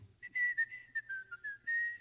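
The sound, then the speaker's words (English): A person whistles a quick string of short, wavering high notes, ending on a longer held tone, with a low steady hum underneath and no talk. “So he go to whistle.”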